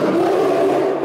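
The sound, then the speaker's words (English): A polar bear roars in one loud, sustained, rough growl with a steady low-mid tone that holds for the whole second without a break. “That's the sound of a polar bear.”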